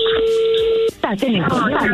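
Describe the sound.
A telephone number is dialed: a steady electronic tone holds for about a second, then breaks off as a voice starts talking over the line.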